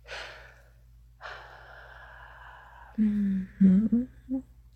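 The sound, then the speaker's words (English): A person breathing slowly and heavily: two long, soft, airy exhales, then a few short voiced breathy murmurs that are louder and lower. “Just feel my warm breath.”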